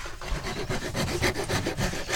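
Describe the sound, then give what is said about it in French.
A hand rasp files wood, rough-shaping the edges in steady back-and-forth scraping strokes that repeat in an even rhythm, a coarse grating sound heard alone. “Passe la lime, la râpe. Ouais. Tu dégrossis là, là, et après à la ponceuse, enfin à main”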